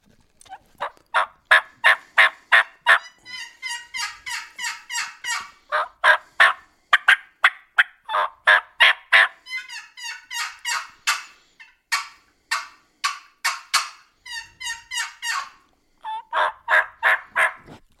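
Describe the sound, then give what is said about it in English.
A wild turkey gobbles in reply to hen turkey calls made with two calls at once, including a mouth call. Many loud, rapid rattling bursts repeat steadily throughout, with no talk. “Now you're telling that gobbler there's two of me over here.”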